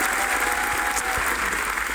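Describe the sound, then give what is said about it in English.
A comedy show audience gives a comedian a round of applause: loud, dense clapping from a full crowd, sustained at an even level throughout, with no talk over it. “Give Jimmy a round of applause.”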